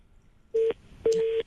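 Telephone line tone on a phone-in call: two steady mid-pitched beeps, a short one followed by a longer one after a brief gap, clear and alone over faint line noise.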